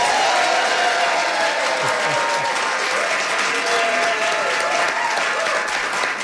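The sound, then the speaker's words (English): A live theater audience at TheaterWorks in Hartford applauds loudly, a dense, steady clapping that holds at an even level from start to finish. “We have a wonderful audience. Here's what they sound like.”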